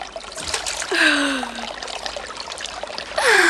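Cold water splashes and trickles as someone washes in it, a hissing, bubbly wash of sound broken by two breathy gasps that glide in pitch, the second near the end.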